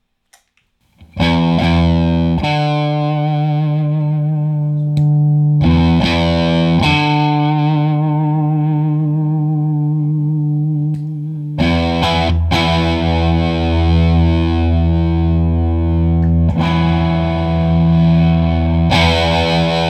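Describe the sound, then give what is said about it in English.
An electric guitar plays through the germanium fuzz setting of a Special Cranker pedal, with heavily distorted, saturated chords that ring out and sustain. A few loud struck chords come alone, each held for several seconds with a thick, buzzing tone. “All I've done is switch over to the germanium now.”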